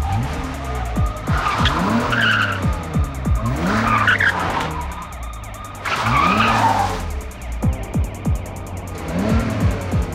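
A car being driven hard with its tires squealing: engine revs climb in pitch again and again, broken by a few loud bursts of screeching rubber, with no voices.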